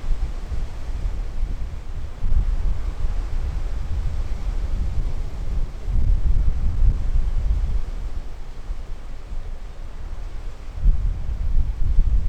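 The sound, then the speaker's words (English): Strong wind blowing, a continuous rushing roar with heavy low-end buffeting that swells in gusts and eases again throughout, with no voices. “Find a place of shelter from the wind, it's also sheltered from the sound.”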